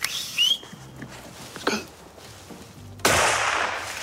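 A hunting rifle shot fired at a roebuck in a forest: one sharp, loud crack about three seconds in that rings on and fades slowly, after a stretch of faint, scattered outdoor sounds.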